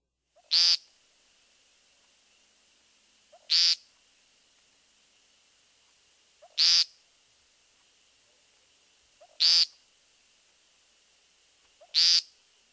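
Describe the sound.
An American woodcock gives its repeated nasal peent call, five short, buzzy notes spaced evenly about three seconds apart, each one sharp and loud against a faint background hiss.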